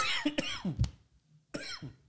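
Coughing from someone who has just inhaled coffee: a rough, sputtering run of harsh coughs, a short quiet gap, then another choking burst, fairly faint overall.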